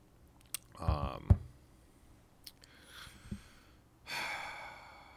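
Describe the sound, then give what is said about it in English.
A quiet sip of coffee from a mug gives faint mouth and slurping sounds, with a few soft breaths and small noises scattered around it. “Sip of coffee.”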